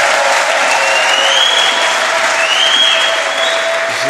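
A church audience claps in a dense, continuous wave of applause that stays loud and steady from start to finish.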